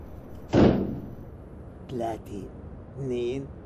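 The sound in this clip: A door slams shut with one sharp, loud bang near the start. People then talk in short bursts.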